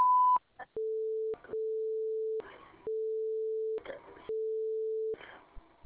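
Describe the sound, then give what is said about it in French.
An automated phone line sounds its signal tone: one short higher beep, then four long, steady, lower tones separated by brief noisy gaps. “Afin de vous identifier, indiquez votre date de naissance après le signal sonore.”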